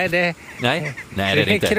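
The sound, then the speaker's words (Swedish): Crows fighting on the town square in Varberg give loud, harsh, throaty caws in several ragged bursts, separated by brief gaps. “det är kråkor som har hamnat i fight faktiskt. Oj. Alldeles bredvid mig. Ja, det var det action här. De var inte överens alls.”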